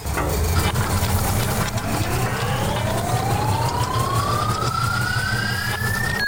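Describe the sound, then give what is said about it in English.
A random-generator sound effect spins up as a whining tone that climbs smoothly in pitch over several seconds and levels off near the end, over a loud, steady, buzzing bed of noise. “Let's load up the random generator and find out who's next.”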